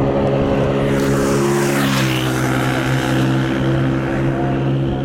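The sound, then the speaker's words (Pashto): A motorcycle riding very fast holds a loud, steady engine drone with strong layered harmonics and a buzzing roar, continuous and unbroken throughout with no voices. “د خپل زړه موټر سایکل په واسطه په خورا تیزی روان دی”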